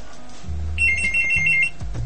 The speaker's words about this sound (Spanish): ¡Oh! ¡Teléfono!